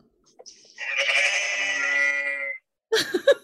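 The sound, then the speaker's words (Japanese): Sheep bleat inside a sheep shed: one long, wavering, nasal bleat, followed after a short pause by a briefer, sharper bleat, both clear and fairly loud with no talk. “あの羊小屋で撮った音がさっき撮ってきました。”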